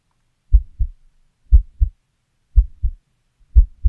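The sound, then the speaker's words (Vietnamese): A boy's heart pounding in his chest as he holds his breath in fear: four deep, low lub-dub double thumps about a second apart, loud against silence. “trái tim lúc này cảm giác như đập bình bịch, tựa như là trống trận ở trong lồng ngực.”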